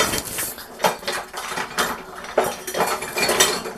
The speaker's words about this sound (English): I need my 2-tablespoon measuring thing because I just want to pour once. So we need 2 tablespoons oil. And is this my 2 tablespoon? That is my 1 tablespoon.